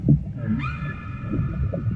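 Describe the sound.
A female whale gives a long, tonal, harmonic call that swoops upward and then holds steady. A low, rumbling background noise runs beneath the call throughout.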